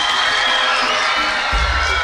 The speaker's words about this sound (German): Vorhang, Applaus.